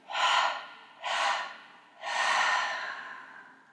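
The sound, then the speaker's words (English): Three audible breaths drawn during a guided counting-down breathing exercise. The first two are short and airy, and the third is longer and trails off slowly, with no talk in between. “Breathe in on the 11th. Take it down into the 10th.”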